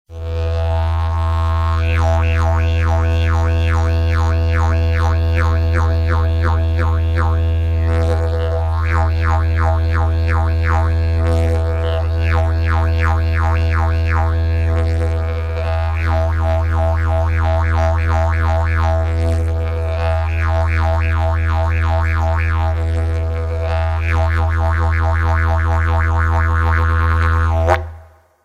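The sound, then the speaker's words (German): Sound effect of a boomerang in flight, a repeating electronic warble of twanging pulses over a steady low drone that continues at length and stops abruptly at the end. “Zuerst hörst du einen langsamen Bumerang. Er wird dann immer schneller. Anschließend trifft er.”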